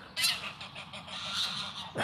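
Geese honk beside a pond in a few loud, harsh calls, with quieter bird chatter and outdoor ambience between them. No voices are heard.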